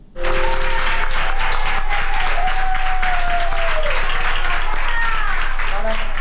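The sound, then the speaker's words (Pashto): Doctors and nurses in a Spanish hospital applaud a woman over 100 who recovered from COVID-19. Loud, sustained clapping from many hands runs steadily throughout, with voices mixed in. “د اسپانیا په پلاسمینا مادرید کې ډاکټرانو او نرسانو هغې مېرمنې ته چکچکی کوي چې تر سلو کلونو تیره ده او له کورونا رغېدلې ده.”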